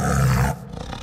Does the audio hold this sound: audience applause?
no